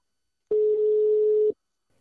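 Ringback tone of an outgoing telephone call: a single steady, mid-pitched pure beep lasting about one second, alone against silence.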